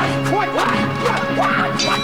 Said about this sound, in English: Blood sputtering from his chest, a masked 88 topples over the balcony and plummets into a table below.